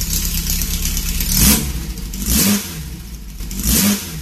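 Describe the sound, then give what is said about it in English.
Car engine revving as a sound effect, resembling a Porsche 356 or a Volkswagen: a steady running engine with three loud revs that swell and fade, alone with no talk. “if you listen to that, kind of sounds like a Porsche 356, but it could be a Volkswagen. I don't know, but the sound effects are all off.”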